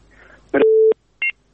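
Telephone tones as a call-in line connects to the next caller: a burst of dial tone, then a steady mid-pitched tone, then a short, higher beep after a brief silence.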